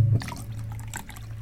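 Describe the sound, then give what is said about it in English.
Cold water pours into boiled water to bring it down in temperature. The liquid makes a continuous trickling, splashing flow at a moderate, fairly even level, with no voices. “then you need to take it down to temperature, so just adding a little bit of cold water.”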